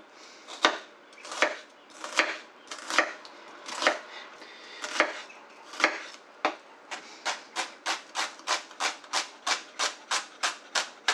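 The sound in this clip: Chopping an onion, with no talk: slower, uneven cuts with loose pauses come first, then the pace quickens into a fast, steady run of many crisp, evenly spaced chops.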